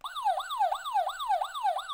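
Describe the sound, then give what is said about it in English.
A siren sound effect wails in quick repeating cycles, each tone sliding down in pitch before jumping back up, steady and fairly loud with nothing else heard. “Hey, you didn't hit the siren.”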